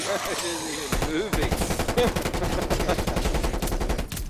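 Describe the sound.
Rapid video-game gunfire in repeated automatic bursts, loud and crackling, with a voice heard briefly at the start before the shooting takes over.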